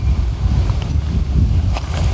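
Wind gusts outdoors in a continuous low rumbling roar that buffets the microphone for the whole stretch, with no talking.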